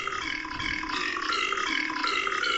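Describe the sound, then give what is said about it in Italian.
Burp samples played as a piano sound effect, a rough, continuous belching tone that sustains at an even loudness for nearly three seconds with no talk. “Quindi ho un pianoforte ruttatore. Oh, fantastico. Quindi dopo l'ascoltiamo.”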